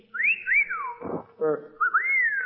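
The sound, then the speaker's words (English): A person whistles the way a girl might whistle at a man: a wolf whistle of two high rising-then-falling swoops, a short rough vocal noise, then a second, longer rising whistle that holds its pitch. “I wonder how a girl would whistle at me. Would it be...”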